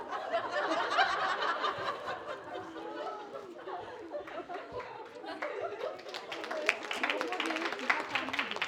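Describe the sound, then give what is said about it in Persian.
Audience applause breaks out amid chatter and laughter, starting as scattered claps and thickening into denser clapping toward the end, with voices talking throughout. “این تشویق از فوش بدتر بود.”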